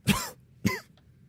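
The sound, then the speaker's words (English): Two sharp coughs from one person, each a short harsh burst with a brief rasping tail, separated by about half a second and followed by quiet. “coughs for a moment”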